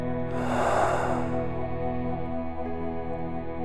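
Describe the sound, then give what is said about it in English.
One deep, loud breath is taken as a breathing exercise. It makes a broad, airy rush that fades over a steady, droning tone, with no talk. “Breathe in. Breathe out.”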